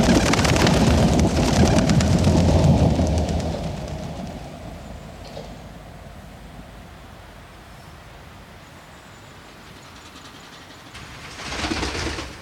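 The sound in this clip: A train passing by: a loud rumbling rush for the first few seconds fades gradually to a faint, steady hum, and a brief swell of noise rises again near the end.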